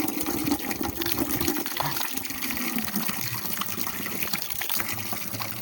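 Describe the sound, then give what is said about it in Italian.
Water runs from a drinking fountain in a steady, splashing gush that continues unbroken throughout, with no voices. “come al solito la fontanella”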